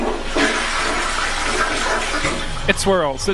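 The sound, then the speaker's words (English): A toilet flushes with a loud, steady rush as water swirls, drains from the white bowl and refills it. A person starts speaking near the end. “It swirls in a circle, and it like drains and goes down, and then it fills back up the bowl in the room with the water in it, the white bowl with the seat.”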